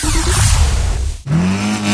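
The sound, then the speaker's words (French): Race car engine revving hard at a hill climb race at Turckheim, France, a loud sustained roar that breaks off briefly midway and then resumes with a climbing tone. “L'événement sport automobile de la rentrée, c'est la 70e course de côte de Turckheim 3 épis du 28 au 30 août.”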